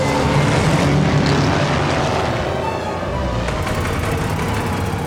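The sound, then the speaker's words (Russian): A red-star airplane flies low over a fortress, producing a steady, broad roar that holds at an even, loud level throughout, with a slight dip midway; no talking. “Самолет с красной звездой низко летит над крепостью.”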